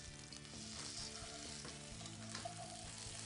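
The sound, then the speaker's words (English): Fish searing in a hot pan gives a loud, constant sizzle and crackle that holds steady without pause for the whole stretch. “So we're just getting it seared up on this side.”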